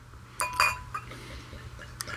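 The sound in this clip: A bottle of dark wheat beer is opened with a few short, bright glass clinks and light rattles, faint and spaced out over low background noise.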